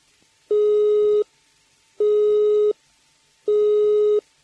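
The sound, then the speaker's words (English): Telephone engaged tone: a steady high-pitched note sounds three times, each burst lasting under a second and separated by equal silent gaps, in a loud, regular on-off pattern. “The engaged tone is a high-pitched note interrupted at regular intervals, like this.”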